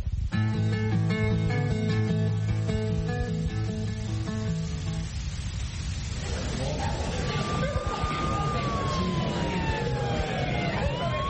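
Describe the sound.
An emergency vehicle siren wails, its tone sweeping up and down over dense low rumbling noise after a few seconds of steady tones.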